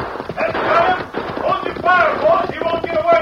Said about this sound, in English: Their two great stallions flashed down the hillside